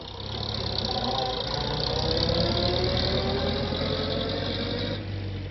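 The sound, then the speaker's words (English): A car engine runs as the car drives off down a drive, a steady mid-pitched drone that holds at an even, fairly loud level throughout and eases off slightly near the end. “As John drove her off down the drive”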